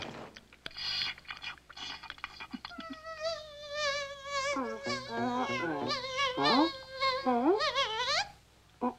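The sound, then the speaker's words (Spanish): A cartoon bee buzzes as a wavering tonal drone that swoops up and down in pitch, with short breaks and a few sharp bends. “Este zumbido significa algo. Y la única razón que existe para que zumbes así es que eres... ¡una abeja!”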